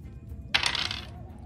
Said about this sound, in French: Lance les dés, fait moins de 80.